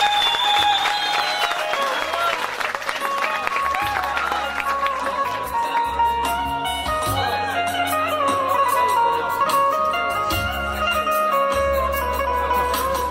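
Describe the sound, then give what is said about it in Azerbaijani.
Audience applause at a wedding celebration, a steady wash of clapping blended with loud music playing throughout. “Alqışlar”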